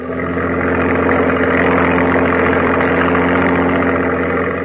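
A landing boat's engine drones steadily as the craft runs toward a beach, a loud, continuous mid-to-low rumble with even vibration and no breaks.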